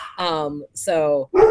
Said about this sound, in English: I am obviously co-hosting with my dogs at this point on the show.